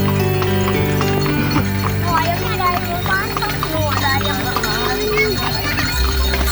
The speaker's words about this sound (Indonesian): Delman adalah kendaraan transportasi tradisional roda 2, 3, atau 4 yang tidak menggunakan mesin tetapi menggunakan kuda sebagai penggantinya.